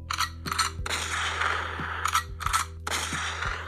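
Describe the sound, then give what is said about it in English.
A shotgun sound effect: several sharp, loud blasts mixed with metallic clangs and mechanical clacks, spread unevenly over a steady low hum. “Let's give her 2 shotguns to the dome.”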